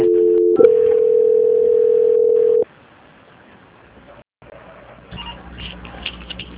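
A telephone line tone sounds while a call is being transferred. One loud, steady tone holds its pitch for about two seconds, then cuts off abruptly and leaves a faint, hissing line with a low hum.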